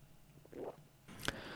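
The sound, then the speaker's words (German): Faint, short slurping and swallowing sounds as someone sips a Bionade Mate pur drink, followed by a brief sharp click. “wie schmeckt denn nun diese Bionade Mate pur. Natürlich belebend. Ich nehme nochmal einen Schluck.”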